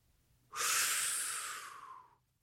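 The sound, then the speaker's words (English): A single deep, hot breath drawn in, a loud, breathy rush of air that starts abruptly, holds steady for over a second, then tapers off into quiet, with no talk. “it is time to inhale a hot breath.”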